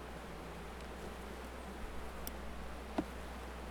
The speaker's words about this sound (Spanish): Y ahora vamos a ver una colmena antigua.